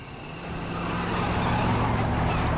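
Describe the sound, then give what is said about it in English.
A car's engine and road noise as it turns onto a freeway: a steady, low rumbling hum that builds gradually in loudness and then holds even. “They turn a corner onto a freeway.”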